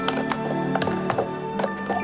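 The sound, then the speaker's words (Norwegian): Slow clip-clop of a horse's hooves as a queen rides toward an entrance, evenly spaced taps over a sustained tonal background. “Dronningen rir sakte opp mot inngangen, fulgt av muskepotene”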